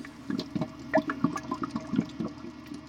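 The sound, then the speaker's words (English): Beer bubbling as it ferments in an empty brewery taproom in Queens: many soft, irregular gurgles and small pops follow one another with no voices. “his taproom has been empty, and all that's left to fill the space are the sounds of the bubbling brew.”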